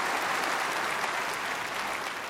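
An audience applauds to welcome a guest, a dense, continuous patter of clapping at moderate volume that holds steady for the full stretch with no voices over it.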